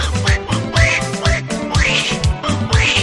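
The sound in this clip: A cartoon-style duck voice quacks a greeting in a series of nasal, squawking calls over a rhythmic backing with a steady low beat.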